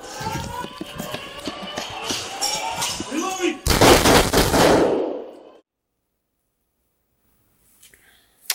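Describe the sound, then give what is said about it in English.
Gunfire during a police confrontation, with dense, loud shots crackling rapidly for about five seconds before cutting off into near silence. “Go. Shots fired.”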